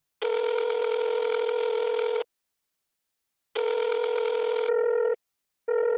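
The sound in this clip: Telephone ringback tone from an unanswered call: two long, steady, buzzing rings separated by a silent gap, then a higher, broken tone pattern in short bursts.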